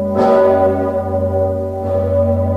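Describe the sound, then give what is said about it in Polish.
A huge historic church bell tolls at Wawel in Kraków, Poland's most famous bell, marking the New Year. Two heavy strikes each bloom into a deep, loud, sustained hum rich in layered overtones that lingers between blows. “Dźwięk dzwonu Zygmunta oznajmił w Krakowie nadejście nowego roku. Najsłynniejszy dzwon w Polsce był słychać przed 10 przez 8 minut.”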